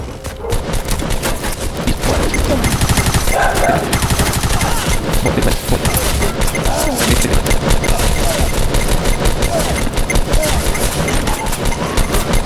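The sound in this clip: Gunfire in a video game, loud and dense: rapid automatic bursts and shots rattle continuously across the whole stretch without a real pause.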